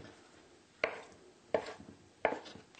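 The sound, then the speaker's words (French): A knife chops tofu into strips on a cutting board, with a few crisp, evenly spaced strikes and a short ringing decay after each. “nous allons le découper en lanières. Le recouper en 2, ça, ou en bâtonnet si vous voulez.”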